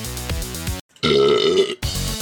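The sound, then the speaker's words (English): A long, deep burp from a person, drawn out and rumbling, broken by short pauses into a few loud bursts. “Pardon my burping.”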